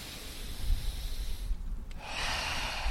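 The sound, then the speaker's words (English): Deep breaths drawn in through the nose during a guided relaxation exercise: soft, airy, rushing inhalations that fill the whole stretch at a steady, moderate level, with no talking. “Going ahead and taking two deep breaths in through the nose.”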